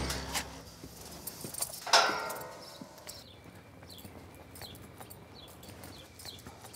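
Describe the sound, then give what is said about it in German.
Hooves of restless zebras shifting around inside their enclosure: soft, scattered knocks and scuffs, with one sharper, louder clatter early on, over a steady low background. “weil die Zebras auch noch drin sind. Das fiel mir gerade auf, dass die da ziemlich unruhig sind.”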